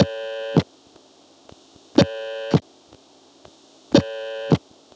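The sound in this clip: On a telephone call, a dial tone sounds in the rhythm of the destination's ringing cadence. Three buzzy, harmonic-rich tone bursts, each about half a second long, come roughly two seconds apart, each opening and closing with a click, and faint clicks fall between them.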